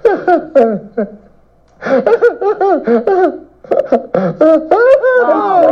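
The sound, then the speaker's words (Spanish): A man crying in loud, voiced sobs and wails with gliding, wavering pitch, broken into several bursts with a short silent pause near the start. “Oiga, no puede ponerse a llorar de todo.”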